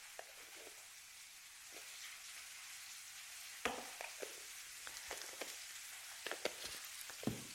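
Meatballs fry in a pan, giving a faint, steady sizzle with a few sharper pops and crackles scattered through the second half. No one speaks.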